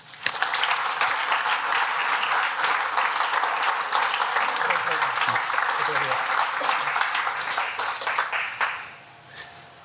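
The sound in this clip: An audience at a talk about an opera production applauds to welcome a speaker. Thick, sustained clapping runs loud for about eight seconds, then quickly dies away into near quiet.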